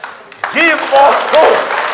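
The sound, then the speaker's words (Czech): Audience applause at a Czech entertainment show, a burst of clapping that starts after a brief quiet moment and stays steady, with voices calling out over it. “A já si myslím, že mu všichni zatleskáme.”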